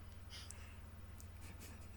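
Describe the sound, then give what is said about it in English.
Pen scribbling on paper, a faint scratchy rasp made of a few quick, irregular strokes over a low steady hum. “I pick mine up and just sort of scribble all over it.”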